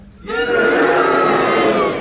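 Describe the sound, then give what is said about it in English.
A studio audience cheers and boos to vote on a contestant's challenge. After a brief quiet moment the crowd erupts into a loud, sustained mass of voices that holds to the end. “If you think that Geraldine's challenge was justified, will you please cheer? If you think it was unjustified, will you boo? And will you all do it now?”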